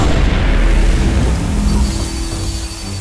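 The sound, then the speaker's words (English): An explosion blast strikes near a spaceship, a loud, deep, rumbling boom that fills the low end and slowly fades over a few seconds. “Report. That blast was 0.2 AU closer to us than the last one. Shield at 95%.”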